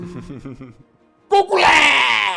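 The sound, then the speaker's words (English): A voice imitates the scream of a Balor demon: a short low vocal sound gives way to a loud, harsh, rasping shriek that holds steady to the end. “The Balor screams, and it is now Vortai's turn.”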